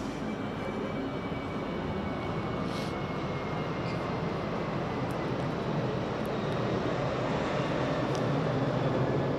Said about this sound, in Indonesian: ya kayak pesawat ini bolak-balik lewat kan gimana lagi?